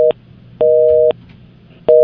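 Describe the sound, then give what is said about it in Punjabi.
A telephone busy tone after a dropped call: loud, steady electronic beeps repeat in an even on-off rhythm, with long tone bursts split by equal silent gaps. “Okay, so call drop ਹੋ ਗਈ.”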